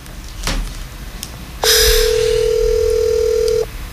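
A telephone rings with a single steady electronic tone lasting about two seconds, loud and unbroken over faint background hiss, after a few soft knocks.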